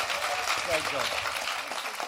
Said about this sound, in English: Big round of applause, ladies and gentlemen.